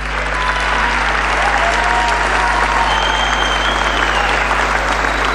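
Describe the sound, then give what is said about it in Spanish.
A crowd applauds at a 2017 election-night political rally, producing dense, loud, unbroken clapping that holds level for about five seconds over a strong low hum. “Un fuerte aplauso para todos ellos y para todas ellas.”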